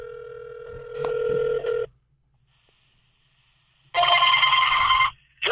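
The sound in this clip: A telephone sounds during a call: a steady electronic tone with a few clicks, a short quiet gap, then a loud, bright burst of high ringing that stops abruptly before another begins.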